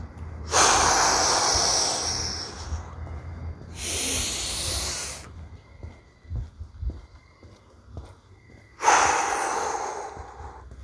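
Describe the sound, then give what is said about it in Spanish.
Loud breathing through the nose during a guided breathing exercise: two hissing inhales, then a quiet pause of several seconds, then a long forceful exhale. “Respira por la nariz, otra vez. Aguanta, otra vez más. Expulsa.”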